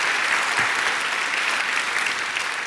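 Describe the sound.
Audience applause welcoming a guest speaker at a church gathering: dense, even clapping that holds steady and loud throughout, with no pause.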